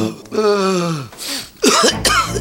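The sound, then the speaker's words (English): A nagging cough from a person with a cold: a drawn-out voiced groan that drops in pitch, then a few harsh, raspy cough bursts, loud and with no talk. “Nagging cough.”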